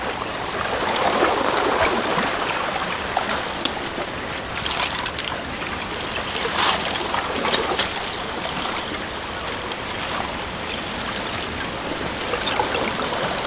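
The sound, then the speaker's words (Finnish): Water washes and splashes against a stone as waves roll in, a steady rushing hiss that runs the whole time with a few slightly louder surges and no voices. “Toi aalto voi puhaltaa jopa sitten yli tästä. Kiven yli.”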